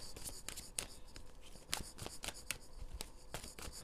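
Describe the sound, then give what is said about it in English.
A chakra oracle card deck is shuffled by hand, giving many quick, crisp papery snaps and flutters in an uneven rhythm, fairly faint and with no talking. “Trying to pull from the chakra deck.”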